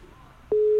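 A telephone tone on a call that goes unanswered: after half a second of faint line hiss, a single steady tone switches on and holds unbroken to the end.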